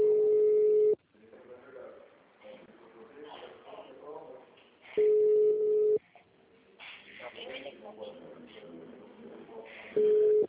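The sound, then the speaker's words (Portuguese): A telephone ringing with an incoming call: a steady, mid-pitched ring tone lasting about a second, repeating three times roughly five seconds apart, with people talking in between. “Peraí, estão me ligando aqui.”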